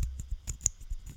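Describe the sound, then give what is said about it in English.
A Ronan the Accuser HeroClix figure's dial clicking: many rapid, light, crisp plastic clicks in an uneven quick rhythm, fairly quiet. “That's the sound of clicks. That's the sound of hero clicks.”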